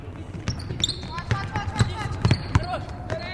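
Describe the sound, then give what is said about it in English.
Basketballs bounce during a women's team practice on a court, with several thuds at an irregular rhythm, high sneaker squeaks and voices in the background. “Here they are at Saturday afternoon practice, dribbling, passing, shooting, rebounding.”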